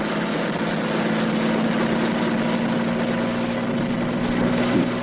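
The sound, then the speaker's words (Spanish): A helicopter engine running as the aircraft starts up and lifts off, a loud, steady, roaring drone with a constant low hum beneath it throughout. “Chufán pone el helicóptero en funcionamiento y comienza a elevarse por el aire.”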